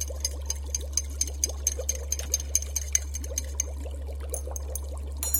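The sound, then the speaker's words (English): A liquid elixir mixture being stirred briskly, giving many quick, evenly spaced clicks and splashy ticks over a steady low hum. “Add this to the mixture. Stir briskly for 5 seconds.”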